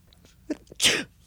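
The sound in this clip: A single sharp, loud, breathy sneeze, self-triggered by pinching the nose, preceded by a brief faint intake of breath, with no talk.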